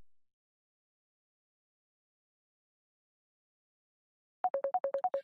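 A phone ringtone sounds during a live call-in session, just before the call is answered. After a long stretch of silence comes a quick run of short electronic beeps, moderately loud and alternating between two pitches.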